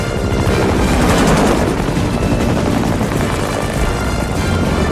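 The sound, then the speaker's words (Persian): A helicopter flies overhead with a loud, steady roar and a fast rhythmic rotor chop that runs through the whole clip. No voices are heard. “این هلیکوپتر اینجا چی کار میکنه؟”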